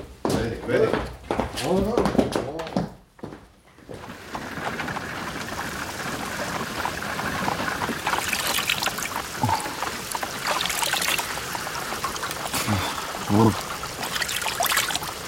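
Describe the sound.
Icy water poured over a person, heard as a steady splashing, trickling pour that runs for many seconds. A brief stretch of voices comes first, and the water carries on to the end with a few louder splashes.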